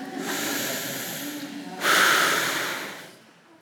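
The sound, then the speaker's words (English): A deep breath drawn in, a soft breathy hiss that swells suddenly partway through, holds briefly, then tapers away. “Let's take a deep breath,”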